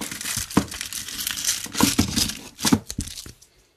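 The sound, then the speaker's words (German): Crinkling and tearing of a Jokolade chocolate bar wrapper being ripped open roughly, with many sharp crackling bursts of uneven loudness and no talk. “So, ich reiße es jetzt einfach komplett miserabel auf.”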